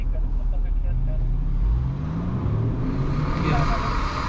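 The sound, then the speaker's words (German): An SUV engine roars at full throttle as the vehicle pulls away, a loud, rough, continuous growl that swells steadily throughout. “Wiederholt gibt der Fahrer beim Anfahren Vollgas.”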